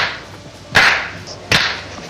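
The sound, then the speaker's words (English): Open-hand slap sound effect from The Three Stooges: two sharp, bright cracks, each dying away quickly, spaced evenly apart against near silence. “Nobody executed the open hand slap any better than Mo Howard. No. And he was the smart one, which isn't saying a whole lot. And he led the league in open hand slap. With the Three Stooges, the smart one.”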